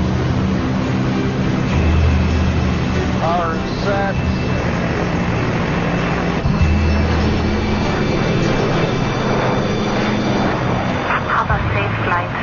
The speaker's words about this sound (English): cleared for takeoff, runway 18. 182 for takeoff. Okay, we're ready to rock.